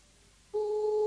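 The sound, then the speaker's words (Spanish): A telephone ringback tone sounds on an outgoing call to a deputy: after half a second of near silence, a steady, buzzing two-pitch tone starts abruptly and holds unbroken to the end. “Ahora voy a llamar a Sebastián Baldomir, diputado del Frente Amplio. Estoy llamando al diputado Sebastián Baldomir”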